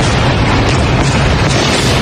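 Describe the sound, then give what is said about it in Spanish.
Explosions from overnight bombing in Iran: a loud, dense and continuous roar of blasts and rumbling, with no separate booms standing out and no voices. “Este es el sonido de los bombardeos esta madrugada en ese país, en Irán.”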